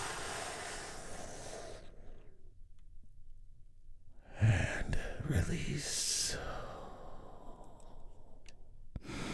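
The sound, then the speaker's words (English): A big, deep breath is taken during a guided relaxation session. After a quiet pause, a long breathy rush of air swells up and fades, with soft tonal sounds around it. “And we begin by taking a big, deep, healing breath all together.”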